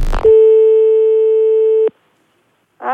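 A single steady, mid-pitched telephone ringing tone on a call to a taxi holds for about a second and a half, then cuts off into silence.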